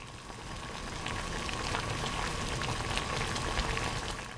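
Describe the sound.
Water boiling in a cooking pot for mustard greens, a steady bubbling and crackling hiss that grows slightly louder after the first second and continues evenly, with no voices.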